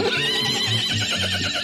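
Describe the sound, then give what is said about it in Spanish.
A mare on a farm neighs loudly and steadily for under two seconds. The whinny wavers and trembles, with no other sounds around it. “Es la yegua de aquí, de la finca”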